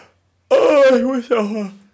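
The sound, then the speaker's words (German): A voiced yawn, harshly distorted by an overdriven recording level. It comes as two drawn-out, groaning vowel sounds, each sliding down in pitch, loud and alone. “Ich glaube, der Gähner war so übersteuert, der ist bei mir völlig sonst wohin von der Kurve gegangen.”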